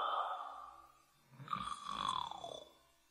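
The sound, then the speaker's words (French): Loud snoring from a wolf in deep sleep: a couple of drawn-out, rasping snores, each swelling and fading, with a low rumble under a breathy, raspy upper layer. “Il dormait d'un profond sommeil et ronflait très fort.”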